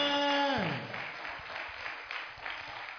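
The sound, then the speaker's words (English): Congregation clapping in a church service, a steady wash of many hands that sets in after a brief tonal opening and keeps going at moderate volume to the end. “Give the Lord a better clap of offering here, somebody.”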